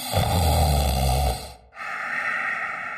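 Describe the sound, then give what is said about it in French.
Snoring from a sleeping figure in a dark cave: one long, loud, rumbling breath, a short silent break, then softer, steady breathy noise to the end. “Au fond, j'ai l'impression que j'entends des ronflements.”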